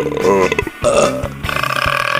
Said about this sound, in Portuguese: Desculpa aí. Também chamado de eructação, o arroto é causado pelo ato de engolir ar, aerofagia.